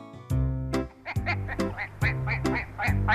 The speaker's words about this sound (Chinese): 小鸭子走过来，它也觉得很好奇， 嘎嘎